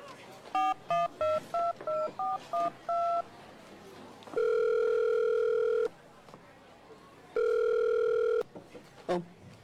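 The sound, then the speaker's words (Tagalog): A phone call being placed: eight quick touch-tone key beeps in a row, followed by two long, steady ringback tones separated by a pause. “Ang mayo pa, tawagan ko siya bala.”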